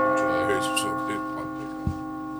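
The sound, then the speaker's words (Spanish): Radio time signal marking two in the afternoon: a sustained, bell-like chime with steady, ringing harmonics that slowly fades, broken by a sharp click near the end. “va a sonar el top de las 2 de la tarde.”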